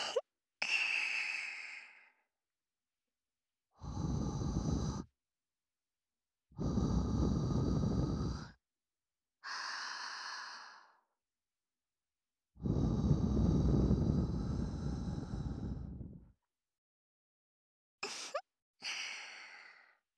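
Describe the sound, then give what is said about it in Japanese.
Soft breathy blowing into the ears, heard as several separate puffs of air with pauses between them, some long and some short, a few carrying a faint voiced, sigh-like tone. “まずは、お耳ふうふうしましょうね。”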